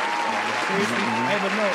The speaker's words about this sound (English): I'm putting a round of applause over here.